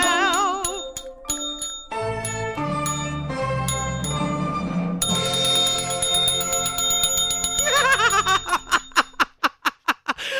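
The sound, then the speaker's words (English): A bell dings over and over, bright and ringing, mixed with other tonal sounds, then ends in a quick series of sharp, evenly spaced strikes. “You don't have to wait too long. Because you can listen to ding the bell.”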